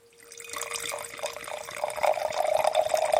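Wine poured into a glass, a trickling, gurgling stream that starts quietly and grows fuller and louder as the glass fills, with a faint steady tone beneath the splashing.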